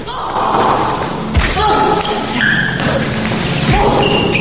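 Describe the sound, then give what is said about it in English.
Heavy blows land as two men beat a man on the ground. A couple of dull, low thuds stand out over a steady bed of other sounds. “The second Julian lowers his gun, Stevie and Dave start laying into him.”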